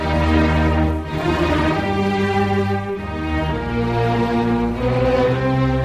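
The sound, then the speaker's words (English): A symphony orchestra plays a classical sinfonia concertante in E-flat major. Sustained strings and full harmonies flow continuously, loud and steady throughout, with no voices. “What you're hearing is the West Eastern Divan Orchestra under the baton of Daniel Barenboim. They're performing Mozart's Sinfonia Concertante in E-flat major.”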